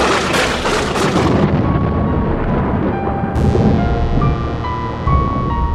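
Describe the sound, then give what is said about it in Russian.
A storm with thunder and strengthening wind, a loud, unbroken roaring rumble with heavy booming surges throughout and no voices. “Мы снова послушали бурю, и я сказал: «Ветер, кажется, сильнеет”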